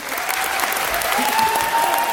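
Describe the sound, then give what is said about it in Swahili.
Applause in the Australian parliament for independent MP Daly's first speech: steady, dense clapping from many hands, sustained at an even, loud level throughout. “Hotuba ya kwanza ya mbunge huru Daly ilipokewa kwa shangwe na nderemo,”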